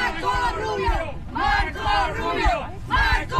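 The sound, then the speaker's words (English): Cuban Americans in Miami cheering and chanting for Marco Rubio, loud massed voices shouting in several rhythmic bursts with short gaps between them. “Some Cuban Americans in Miami cheered him.”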